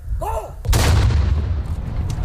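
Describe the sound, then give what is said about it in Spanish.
A single loud boom from a noon cannon fired by an artillery regiment, erupting abruptly after a brief moment of quiet with a faint whistle-like tone, then rumbling and decaying over the following two seconds. “Se dispara el cañonazo de las 12, que anuncia la llegada del mediodía.”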